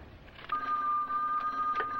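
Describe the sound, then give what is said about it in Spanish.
A telephone rings in a film scene from 1979, one sustained, steady electronic ring that starts after a brief stretch of quiet hiss and carries on to the end. “Están llamando, Luis.”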